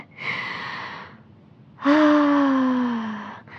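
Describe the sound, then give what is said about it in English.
Deep breathing by someone trying to calm down before sleep: two long, loud breaths, the first soft and airy, the second longer with a voiced, gently falling sigh-like tone. “Deep breathing. Lots of deep breaths here.”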